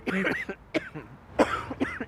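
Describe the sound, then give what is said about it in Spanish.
Bursts of persistent, spasmodic whooping cough, harsh hacking fits in quick clusters with brief gasping pauses, loud and alone without talk. “es la tos persistente y espasmódica.”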